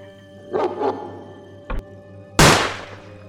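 A single loud, sharp gunshot fired at a pale creature running on all fours in a tunnel, a sudden bang with a quick decay, preceded by a few gruff animal-like barks and a dull thunk.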